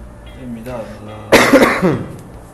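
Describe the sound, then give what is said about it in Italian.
A burst of harsh coughing that breaks in abruptly, a loud explosive hack followed by a few rougher, weaker pulses, after a low, quieter stretch of voice. “se io adesso pensassi a un uomo senza tosse, mi passerebbe la tosse”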